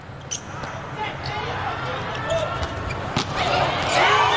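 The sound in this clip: A volleyball serve is struck during an Italy match. A few sharp ball impacts stand out over steady crowd noise, with a commentator talking throughout.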